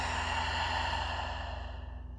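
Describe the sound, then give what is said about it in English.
A slow breath out through the mouth during a standing yoga stretch, soft and airy over a steady droning background, fading gently toward the end. “Taking a nice breath in through the nose. Out through the mouth.”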